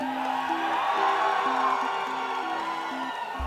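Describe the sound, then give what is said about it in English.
A roaring crowd cheers at an esports event, a broad, steady wash of voices with sustained musical notes running beneath it. “I delve into the world of esports to peel back the curtain on a booming industry, from the roaring crowds”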